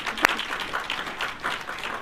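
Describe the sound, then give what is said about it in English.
Applause from a group of people, many hands clapping in a steady, even wash that holds at the same level for the whole stretch, with no talk over it. “So, let's clap.”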